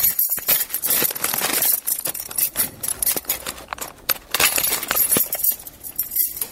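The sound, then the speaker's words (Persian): Keys jangle and clink while a door is being locked, a dense, continuous metallic rattling with sharper chinks throughout. “من در رو قفل میکنم”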